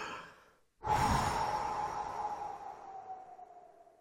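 A deep breath is taken and blown out at birthday candles: a single long, breathy rush of air that starts abruptly after a short pause and slowly fades, quiet overall.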